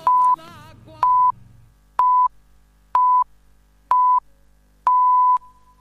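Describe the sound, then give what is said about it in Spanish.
Radio time signal marking the hour: six evenly spaced high beeps, one per second, the last held longer than the rest, over a quiet low hum. “Sonó el top y en Radio 750”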